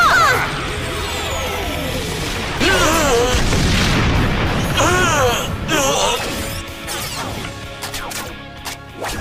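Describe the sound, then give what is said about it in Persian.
Booming blasts of a bazooka firing in an animated fight scene, several broad bursts heard under loud, excited voices that shout throughout. “ابر بازوکا این خوب نیست شلیک بازوکا”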